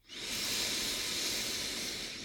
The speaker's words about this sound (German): einmal dich aufrecht hinzusetzen, einzuatmen über die Nase